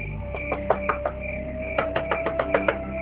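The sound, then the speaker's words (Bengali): Knuckles rap on a washroom door in two quick bursts, a handful of sharp knocks and then a longer run of them, over a faint steady hum. “করবো knock করবো, ওয়াশরুমে দরজা knock করা তো চরম অভদ্রতা।”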